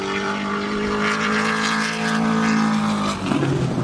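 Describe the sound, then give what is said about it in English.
An AC Cobra sports car drives past at a motor racing event, its engine giving a loud, sustained droning roar with a strong low tone that shifts slightly near the end. “There's one going by. It looks like an EC Cobra.”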